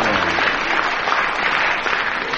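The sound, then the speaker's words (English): Audience applause follows a rendition of the nursery rhyme Tom the Piper's Son. Clapping is thick and uniform and carries on through the whole clip with no lulls. “It's almost shaming to get applauded for Tom the Piper. And there's stony silence for Beethoven.”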